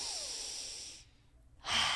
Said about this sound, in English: We're going to take a deep breath in.